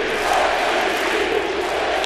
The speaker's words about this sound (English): Could he possibly cap it all off to hit 60 while the entire crowd is chanting MVP? The answer is yes. 40,000 chanting MVP.